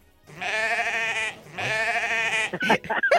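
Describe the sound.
A sheep bleats twice, each a loud, quavering cry of about a second, and then a voice briefly starts speaking.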